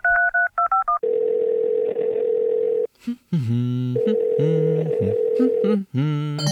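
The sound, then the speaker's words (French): A telephone number is dialled: a quick run of touch-tone beeps, then a long, steady ringing tone, followed by further tonal sounds. “Je vais l'appeler maintenant.”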